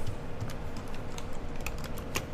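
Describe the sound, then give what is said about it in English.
Typing on a computer keyboard: a few soft, quick keystroke clicks tapping at an uneven pace, faint and on their own. “If I could type, that would be good.”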